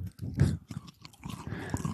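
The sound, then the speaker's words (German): Crunchy chewing of a caramel chocolate bar with puffed rice, eaten close to the microphone in ASMR style: irregular crisp bites and mouth crunches, some louder than others, with no talking. “Oh, die cruncht so schön. Wonach schmeckt sie denn nur? Außer Crunch. Oh, zarter Karamell.”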